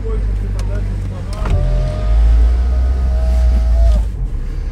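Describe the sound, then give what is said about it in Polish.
A car driving on a road in Ukraine toward Rava-Ruska, with a steady low rumble of engine and tyre noise throughout that swells a little midway. “Jesteśmy na Ukrainie, w kierunku Rawy Ruskiej jedziemy, do Lwowa mamy 67 km.”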